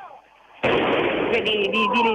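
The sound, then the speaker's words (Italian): Firecrackers and smoke bombs go off in a square by a station entrance, a sudden loud blast that breaks into sustained crackling and sharp pops after a voice talking at the start. “di fumogeni, di petardi”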